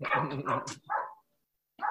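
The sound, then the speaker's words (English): Dogs bark across the street in a few short, loud bursts, with a pause before the last one. “These dogs across the street”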